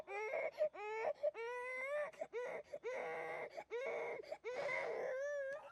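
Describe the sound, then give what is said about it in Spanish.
A baby girl cries in repeated, rising wails broken by short gasps, fairly faint and without other sounds. “No deja de llorar. Ayúdame a sacarla.”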